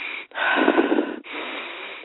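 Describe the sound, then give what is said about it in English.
A person demonstrates short, quick, shallow breathing: two airy breaths in close succession with a brief break between them, fairly loud and without talk. “What's that mean, a minimal amount? I mean, we breathe like this.”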